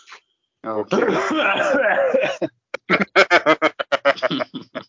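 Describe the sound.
Wheezing laughter: after a stretch of talking comes a rapid run of short, breathy, rasping bursts.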